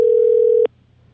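Telephone tone on an outgoing call, one loud, steady, pure note that holds for about two-thirds of a second, then cuts off abruptly into near-silence.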